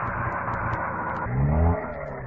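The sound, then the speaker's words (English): A motor runs with a low, rough, steady drone and a dense harmonic hum, swelling briefly before settling back to an even level with no talk over it. “they killed the motor”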